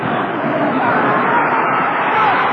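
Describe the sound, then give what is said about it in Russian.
Football fans at Maracanã stadium in Brazil form a dense, continuous crowd murmur of many voices that stays steady and fairly loud throughout. “все звуки, которые вы слышите, документальны. Они действительно записаны на Маракане.”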